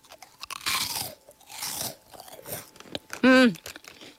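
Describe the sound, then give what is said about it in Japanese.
Crisp crunching as someone bites and chews a crispy bite-sized cheese snack, with several loud crackly bursts in quick succession. A short voiced hum with a falling pitch sounds near the end. “さっくり口に入って溶けていきます。美味しい。”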